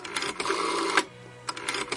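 A telephone being dialled: rough mechanical whirring and rattling with a few sharp clicks, a short lull partway through, then a further run of quick clicks.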